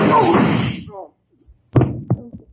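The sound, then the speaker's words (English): A gunshot fired through a desk in a radio drama: a man speaks, a short silence follows, then a single sharp crack hits, trailed by a shorter dull thud. “You sure ruined that desk. I couldn't help it. Had the gun between my knees. I move, he shoots. Had to try it right through the desk.”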